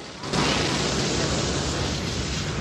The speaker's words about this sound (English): As they walk along, a series of vents open, sending bursts of steam over them.